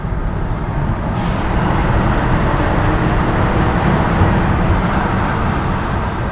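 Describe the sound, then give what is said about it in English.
Steady, loud roar of road and wind noise from a car driving on a freeway with the windows down on a 52-degree morning, holding an even level throughout with no voices. “Driving down the freeway with the windows down is a brave act.”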